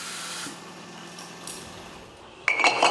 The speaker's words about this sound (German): Hier in der Sektmanufaktur werden am Tag über 1000 Flaschen von Hand abgefüllt.